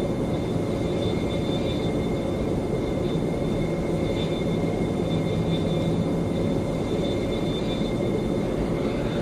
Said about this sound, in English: at this point, the aircraft is going to pilot itself, so I'm not going to worry about piloting it.